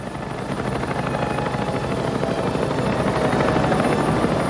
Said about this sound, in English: In the desert, two snub-nosed assault helicopters fly low over the sand, like giant black insects hovering in the night sky.